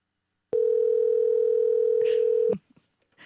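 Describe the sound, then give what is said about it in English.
A telephone dial tone after the caller hangs up: one flat, steady hum lasting about two seconds, then cut off, followed by a few faint clicks. “Oh, shit. He fucking hung up.”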